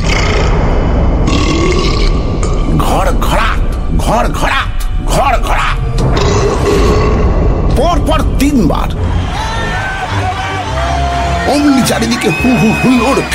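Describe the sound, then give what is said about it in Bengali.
A giant burps loudly in a dramatized story: long, heavy, croaking belches come in a few bursts, mixed with other voiced, grunting vocal sounds throughout. “তুলেছে, তুলেছে, দৈত্য ঢেকুর তুলেছে।”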